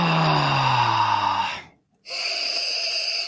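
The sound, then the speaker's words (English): Loud, close breathing into a microphone: a long airy breath, a short silent pause, then another steady rushing breath, with no speech. “it's just every time you breathe in, we can hear it.”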